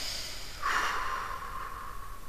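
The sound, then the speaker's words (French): A single deep breath taken during a guided concentration exercise with eyes closed: a soft, breathy rush of air lasting under a second, quiet and alone with no talk. “Prendre deux grandes respirations profondes. Allons-y.”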